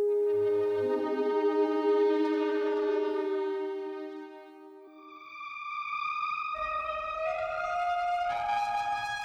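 A Moog Rogue synthesizer holds a single sustained, bright note that opens up into two notes, with a steady electronic tone that dips slightly in loudness midway before swelling again.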